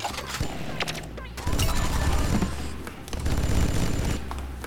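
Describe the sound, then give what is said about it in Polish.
Video game gunfire from a loaded weapon as the player shoots at objects and lamps in a level. Many rapid sharp shots form dense bursts over continuous game sound, and the firing grows heavier and louder in two later stretches. “I mogę postrzelać sobie do tego wszystkiego, bez problemu. Do lamp też mogę strzelać”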